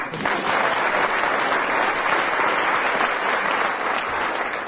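Audience applause for the winning team of a comedy panel game: dense, steady clapping that holds at an even, fairly loud level for the whole stretch, with no pauses.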